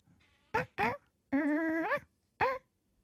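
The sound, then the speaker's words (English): Mimicked dog barking, four yelping, bark-like calls: two short ones close together, a longer drawn-out one that rises at its end, then a final short one. Fairly loud against quiet. “she has been mimicking Yogi's bark, because she hears Yogi on the other side of the house”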